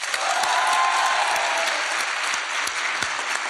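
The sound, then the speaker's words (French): A live audience at the Frames Festival gives a loud, sustained round of applause, a thick, even roar of clapping hands that keeps the same strength from start to finish. “Faites un tonnerre d'applaudissements pour Patrick Beau.”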